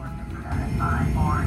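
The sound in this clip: A light aircraft's engine opens to full throttle for takeoff, a dense, steady roar that swells slightly in loudness and holds strong throughout.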